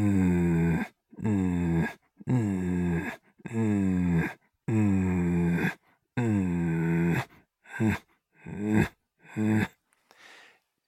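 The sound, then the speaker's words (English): A person makes rough, low growling breaths that imitate a leopard's growl as a breathing exercise. The voiced exhalations repeat in a steady rhythm and grow shorter and fainter toward the end. “breathing in, breathing out, and just go, just that sound. I call it the growl of the leopard.”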